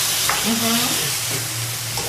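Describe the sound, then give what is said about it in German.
Leek fries and is stirred in a pan, a loud, continuous sizzle with occasional scraping and stirring noises mixed in, steady from start to finish. “Ich brate es noch ein bisschen scharfer an, wa?”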